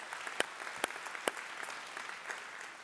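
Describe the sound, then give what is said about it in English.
A church audience claps to welcome others, a soft, even patter of applause with a few sharper claps standing out early on, fading slightly toward the end. “The Crossing St. George, our microsites, all those who are watching online, can we just give them a big hand, welcome them?”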